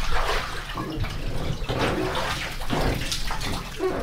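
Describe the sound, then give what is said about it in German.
Seawater drawn up by a sampler is tapped into small bottles on board a research boat, a continuous splashing, gurgling flow that surges and eases slightly over several seconds, with no voices. “Noch an Bord zapft der Forscher das geschöpfte Wasser in kleine Fläschchen ab.”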